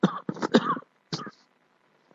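A few harsh coughs in a quick cluster, then a single shorter cough after a pause, with near silence in between and a brief faint click at the end.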